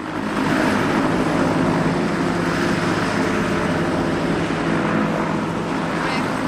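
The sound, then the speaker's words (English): Helicopter engine and rotor roar as the aircraft lifts off a mountain during a rescue, a loud, dense, steady wash of noise from start to finish. “Jack and Sammy are on board an elevating helicopter.”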